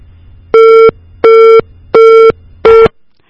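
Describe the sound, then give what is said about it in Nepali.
Busy tone after a disconnected telephone call: four evenly spaced, loud, steady electronic beeps, each lasting about a third of a second, followed by quiet. “Technical इस्युजको कारणले गर्दाखेरि उहाँको call चाहिँ काटिएको छ”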